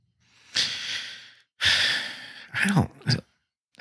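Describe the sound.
A loud, long inhale drawn in by a person, a drawn-out airy rush, followed by a second long breath and then two short, sharp breathy bursts.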